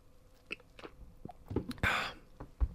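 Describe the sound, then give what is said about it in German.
Someone drinking, with several soft sips and swallows spread unevenly, plus a longer, louder breathy burst past the middle and a final gulp near the end. “Ähm, ich werde jetzt ein bisschen was trinken. Einen Moment.”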